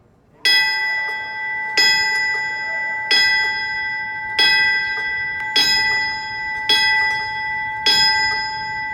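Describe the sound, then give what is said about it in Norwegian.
A memorial bell tolls in honour of the firefighters who responded to the 9/11 attacks on the World Trade Center, with seven evenly spaced, bright strikes whose metallic overtones ring on between blows. “Bjelleklangen er til minne for brandmannskapet som rykket ut etter angrepet på World Trade Center i New York.”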